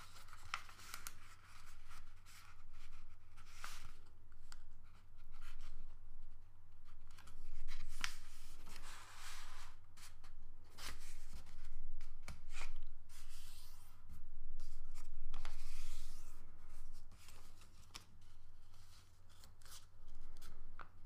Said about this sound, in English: Take one side off the paper and open it up like this.